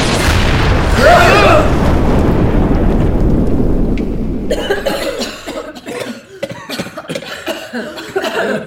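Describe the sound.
Coughing from too much smoke, after a long, loud rushing burst of noise; a rough, irregular run of coughs and throaty sounds follows.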